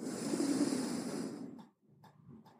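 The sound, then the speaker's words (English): A deep inhale during a guided breathing exercise: a long, steady, breathy rush lasting about a second and a half, then dropping away to quieter, softer breath sounds. “we'll take one nice deep inhale breath in”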